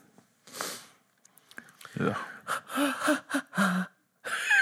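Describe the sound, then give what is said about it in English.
A person gasps for breath after forgetting to breathe. A rapid series of strained, wheezy, voiced intakes has an odd, almost sung, choir-like tone, and a final sharp inhale follows a short pause. “What was that? Well, I, for some reason, realised my lungs had forgot to breathe for a while. Oh. And then when I tried to force it to breathe, I became some sort of strange, you know, Philip Glass kind of choir”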